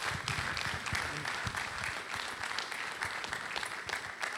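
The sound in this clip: A church audience applauding to welcome their pastor before he preaches, a dense and steady burst of clapping that holds at an even level throughout.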